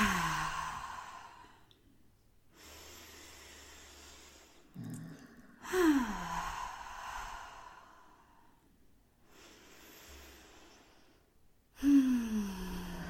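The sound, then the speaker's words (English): Slow, deep breathing, drawn in through the nose and let out through the mouth: a few soft, airy breaths separated by short quiet pauses. “take a few breaths in through the nose and out through the mouth or nose.”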